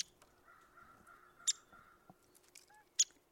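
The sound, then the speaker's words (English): A crow caws faintly in the background with a hoarse, drawn-out call, while a couple of sharp high bird notes stand out briefly above it; otherwise quiet. “There's a crow in the background”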